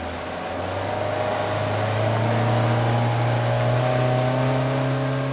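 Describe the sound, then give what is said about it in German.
A motorboat engine drones steadily while heading out to salmon farm net cages, a low, even hum with a faint whine on top that swells slightly louder partway through, with no voices. “fährt mit seinem Motorboot hinaus zu den Netzkäfigen”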